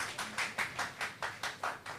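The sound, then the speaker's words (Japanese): Scattered hand claps from an audience applauding a media team, sounding as a steady run of many separate, fairly faint claps rather than a dense roar. “メディアチームの皆さん、いつもこの素晴らしいスライドを作ってくださってありがとうございます。メディアチームに拍手をしましょう。”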